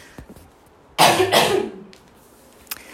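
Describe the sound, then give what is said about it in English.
A person coughs once, a loud, rough burst in two quick pushes. Quiet stretches come before and after. “sorry, I figured I just would cough instead of continuously pausing and restarting”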